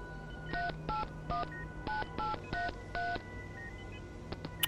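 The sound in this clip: Telephone keypad dialing tones from a phone calling someone at a hospital: seven short, evenly spaced tone bursts at a steady rhythm, followed by a few faint clicks.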